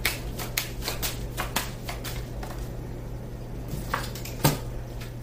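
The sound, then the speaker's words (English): A card being drawn from a deck during a card reading, with a few soft papery clicks and flicks, the sharpest near the start and near the end, all faint over a low steady hum. “And I'm going to take one more card.”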